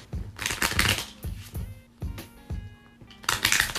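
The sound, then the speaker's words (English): A deck of cards being reshuffled after many cards fell out: a dense riffling burst, then a few separate sharp slaps and taps, and another quick riffle at the end, with no talk. “To reshuffle, too many cards fell out. Let me reshuffle.”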